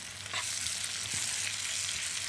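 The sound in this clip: Onions fry in a pan with a steady, bright sizzling hiss that holds constant throughout, with no voices.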